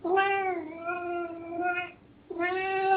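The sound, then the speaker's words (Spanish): A cat meows twice, loud and clear on its own: first a long, drawn-out call that bends in pitch partway through, then a short pause, then a second, shorter meow. “Este gato parece que quiere que demos un mensaje.”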